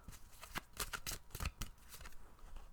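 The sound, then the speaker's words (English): A tarot card drawn from the deck, heard as papery rustling and quick card snaps in several short bursts, with no voices. “And I am going to go ahead and pull a card for everybody this week.”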